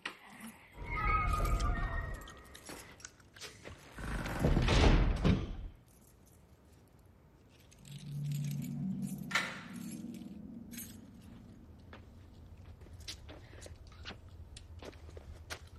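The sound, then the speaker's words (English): Keys jangle and a door is handled as a nurse enters a cell and locks it behind her. A few loud clattering bursts with metallic clinks are followed by a quieter, low rumbling stretch. “Obnoxiously chewing gum, the nurse enters Mona's cell and locks the door behind her.”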